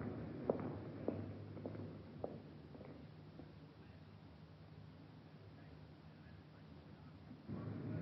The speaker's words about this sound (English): Heading up the walk of the home. It's a small English-type cottage.